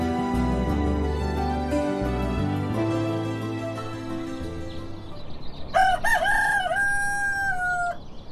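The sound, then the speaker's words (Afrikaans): A rooster crows once near the end, a loud rising then steady call lasting a couple of seconds, after a stretch of low droning tonal sound. “Kry klaar met jou gekraai, die hele Lucies, hy is al wakker.”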